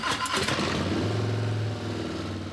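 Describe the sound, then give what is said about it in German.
A large-displacement Harley-Davidson V-twin motorcycle engine opens with a rough burst of sound, then settles into a deep, steady rumbling throb that carries on to the end. “Was aber, wenn die hubraumstarken Harley-V-Motoren eines Tages nicht mehr so klingen,”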